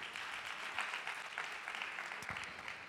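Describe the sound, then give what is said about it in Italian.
Applause from the audience at a Sunday church gathering: dense, continuous clapping that stays even and fairly faint for the whole stretch, with no voices standing out. “Facciamo un altro applauso per lui.”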